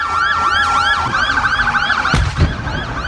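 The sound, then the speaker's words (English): Emergency sirens wail after a suicide car bombing in a parking lot outside a mosque in Medina, Saudi Arabia. Loud overlapping rising-and-falling siren sweeps run continuously, with no voices. “Sirens, then a car in the parking lot with a bomb, suicide bombing occurred, blowing up from the heat of the fire there.”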